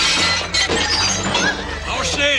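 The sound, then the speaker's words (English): A compartment door is smashed in with a gun barrel, giving a harsh shattering, breaking crash that runs throughout, with a voice heard over it. “With his gun barrel, one smashes in the door to the second compartment.”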